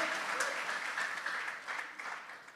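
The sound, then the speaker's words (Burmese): A church audience claps for Jesus during a sermon, a sustained patter of many hands that stays fairly even and then eases slightly toward the end. “ထိုယေရှုကယ်တင်ရှင်ကိုလက်ခုပ်တီးလက်ကုန်ပြုကြရအောင်”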